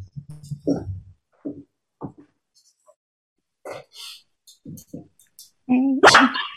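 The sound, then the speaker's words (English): A female pet dog barks and yelps in a loud burst of sharp, pitched cries near the end, after quiet gaps and a few brief, faint earlier sounds. “Oh, sorry. That's my dog. She's also here.”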